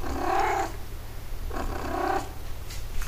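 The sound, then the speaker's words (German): A cat purring alone, a low, rough rumble that swells and eases in slow breathing cycles at a soft, even level. “Mieze scheint sich da drüben sauber zu machen.”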